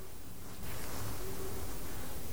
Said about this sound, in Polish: Bo to jest drugi gatunek sowy. I pamiętamy, który? Tak, to jest głos uszatki.